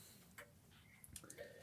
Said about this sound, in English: The clock is now starting now. You have 13 minutes on the clock.